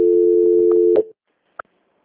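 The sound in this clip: A telephone rings and goes unanswered: a steady, low ringback tone holds for about a second, then cuts off, and a single sharp click follows after a brief silence.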